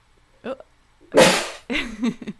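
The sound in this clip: One sharp, explosive sneeze bursts out in the middle, with a person talking just before and after it.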